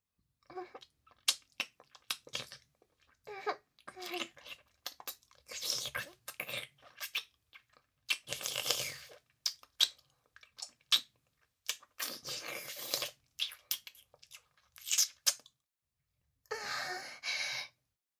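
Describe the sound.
Someone eating a meal, chewing and crunching in many short irregular bursts separated by brief pauses, with breathy exhales between bites.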